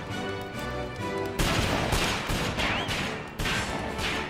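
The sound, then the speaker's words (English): Heavy gunfire fills the stretch: a dense, loud, continuous volley of overlapping shots and booming blasts, swelling in a few sharp surges without pause. “Those are the biggest, slowest bullets I've ever seen.”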